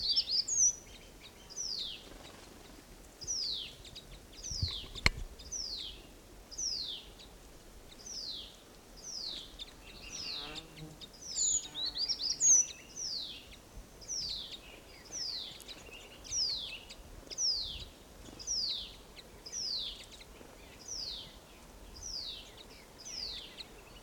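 Many birds in a flock calling together: high, downward-slurred chirps repeat in a steady, even rhythm throughout. They are moderately loud, with a faint lower rustle between the calls.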